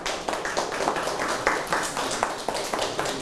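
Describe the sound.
Steady, rhythmic hand clapping, many even claps at a quick regular pace, forms a moderately loud, continuous round of applause.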